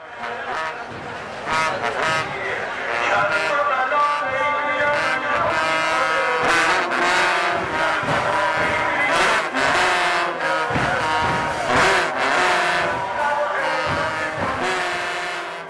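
A trumpet of the kind used in mourning ceremonies for Imam Hussein plays sustained, brassy, mournful tones over many sharp percussive strikes, loud throughout.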